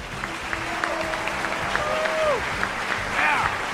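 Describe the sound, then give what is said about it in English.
Audience applause for guests at a live season finale show, dense, steady clapping throughout with whoops and shouting voices rising over it. “Thanks for the applause, everybody.”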